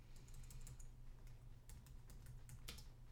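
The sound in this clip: Faint typing on a computer keyboard, with many light, irregular key clicks over a low, steady hum.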